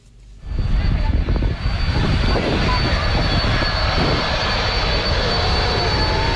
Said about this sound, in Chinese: 从荷兰首都阿姆斯特丹起飞，一路向西向南，历时8个半小时，还可以降落在荷兰的领土。